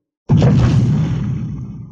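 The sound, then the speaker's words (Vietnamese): A huge, earth-shaking explosion bursts in suddenly after a moment of silence, then thunders on as a broad, rumbling roar that slowly fades over more than a second, with no voices. “Một tiếng nổ kinh thiên động địa vang lên, toàn bộ hư không kịch liệt rung động.”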